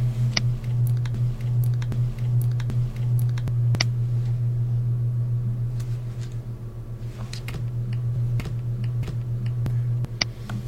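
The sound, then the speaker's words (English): Someone types an equation on a computer keyboard. Many sparse, sharp key clicks sit over a steady low electrical hum. “Now I'm going to type in the famous E equals MC square.”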